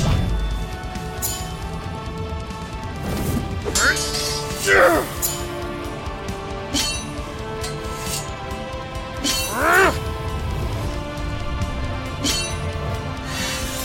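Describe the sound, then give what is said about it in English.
Swords clash, one wreathed in flames and the other a dark blade: a few bright, ringing metallic strikes cut through a dense, busy background. “Once again, the two swords meet, only this time the flames of pride seemingly prevailing against the dark power of Mortem's blade.”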